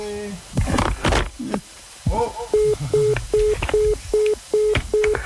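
Telephone line tones at the end of a radio phone call: a regular series of about seven short, identical mid-pitched beeps with even gaps, following a brief stretch of mixed sounds at the start.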